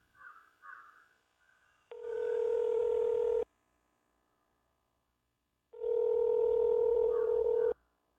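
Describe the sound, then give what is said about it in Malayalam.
A telephone call being placed with the ringing tone on the line: two long, steady buzzing tones, each roughly one and a half to two seconds, separated by a silent gap and preceded by faint, brief sounds. “ഞാനിപ്പോൾ തന്നെ വിളിച്ചു പറയാം.”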